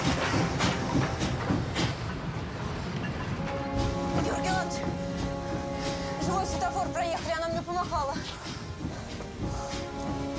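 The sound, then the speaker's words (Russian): A steam locomotive picks up speed while running backwards, with a rhythmic mechanical clatter and hiss that continues throughout. Wavering tonal notes rise over it in the second half. “Паровоз, набирая скорость, едет назад.”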